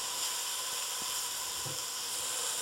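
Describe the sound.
Steady, soft sizzling of onions softening in a hot pot for lasagna soup, an even hiss that stays level throughout with no voices.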